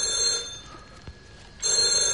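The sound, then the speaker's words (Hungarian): A telephone bell rings in bright, steady trills at the start, falls silent for about a second, then starts ringing again. “A telefont majd én felveszem.”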